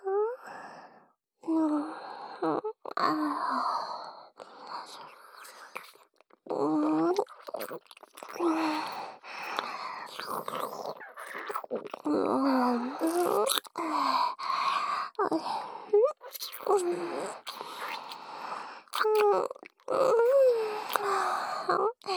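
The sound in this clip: Wet, deep tongue-kissing sounds in an intimate roleplay, with repeated smacks, slurps and clicks woven among breathy moans and sighs, continuing steadily with brief pauses throughout.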